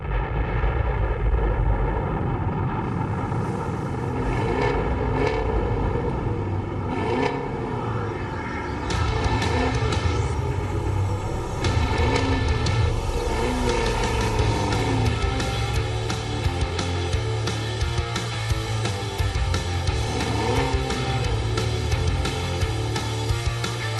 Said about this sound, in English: 5, 4, 3, 2, 1, liftoff.